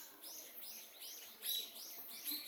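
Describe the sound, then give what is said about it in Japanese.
Birds chirping in a jungle-like spot under open sky: many bright, high chirps repeat in a quick, steady rhythm, with a couple of louder, sharper notes standing out. “なんでね鳥の声聞こえるの？”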